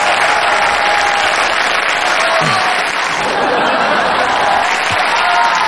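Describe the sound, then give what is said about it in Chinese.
An audience applauds loudly and steadily through a comedy performance. The clapping forms a thick, continuous wash, with some laughter and chatter mixed in. “行了，您别鼓掌了啊！”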